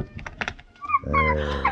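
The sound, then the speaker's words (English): A little puppy yips and whimpers. A few short, faint yelps are followed by a longer, whining cry. “it's a little puppy.”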